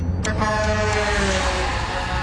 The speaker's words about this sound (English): I'm going to pull in front of this truck.